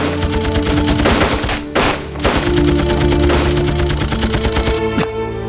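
Gunfire on a shouted order to shoot: loud, dense volleys of rapid, machine-gun-like shots that continue almost without a break, with one brief dip near the middle.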